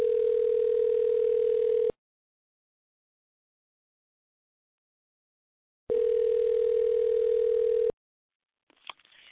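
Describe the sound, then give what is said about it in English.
Ringback tone of an outgoing telephone call: two long, steady buzzing rings separated by a gap of silence, followed by a faint brief rustle at the end. “hopefully she'll turn her computer down and maybe answer her phone.”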